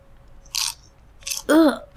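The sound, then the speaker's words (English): Popcorn being chewed: a few crisp, separate crunches with quiet gaps between them. “Now, let's see how this popcorn tastes.”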